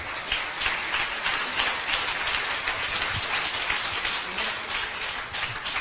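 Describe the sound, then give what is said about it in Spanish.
An audience gives loud applause to the Lord during a church sermon. The clapping is dense and continuous, a steady rain-like patter that stays even throughout. “Un aplauso fuerte al Señor.”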